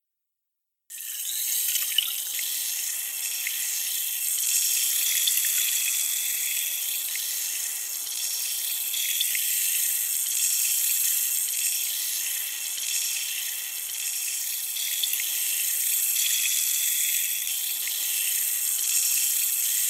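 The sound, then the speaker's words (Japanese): Running water pours steadily over an ear during an ear-washing treatment, a continuous bright hiss and rush that starts after a moment of silence and holds at an even level throughout, with no voices. “反対のお耳も洗浄していきますね。”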